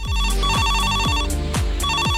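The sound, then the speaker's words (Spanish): A telephone rings with repeated loud electronic trills, steady in pitch and broken by one short pause before the ringing resumes. “Teléfono.”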